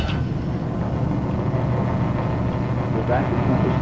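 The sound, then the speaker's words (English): An Exervac baldness-cure machine runs with a steady, droning hum. Its cabinet holds an air compressor and a vacuum pump, joined by a rubber hose to a metal skull cap, and the mechanical noise stays continuous and fairly loud throughout. “It's a cabinet attached to a metal skull cap by a rubber hose. Inside the cabinet are an air compressor and a vacuum pump. Now, when I turn this on,”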